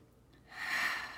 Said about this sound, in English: sit up straight, close our eyes, take a deep breath in.